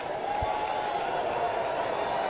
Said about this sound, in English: Crowd staying energized, now deploying their own efforts for the Orioles on the field.